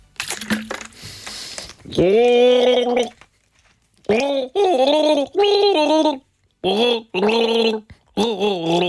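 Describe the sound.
A person gargles a pop song, the bubbling voice imitating the melody in several short tonal phrases separated by brief pauses, after a noisy gulp at the start.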